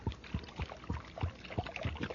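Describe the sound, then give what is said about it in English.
Fuel glugs into a car's tank in a steady series of low, rhythmic gulps, quiet and regular, with no other sound over it. “But you hear that? The driver's filling up the tank with some super fuel.”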